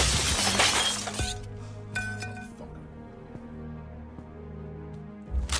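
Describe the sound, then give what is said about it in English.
A TV is smashed in a Friday the 13th fan film: a loud burst of shattering glass, then a brighter clink of falling pieces and a lingering, fading tinkle. “I love when movies have TVs be broken. It's just so funny watching someone just smash a TV.”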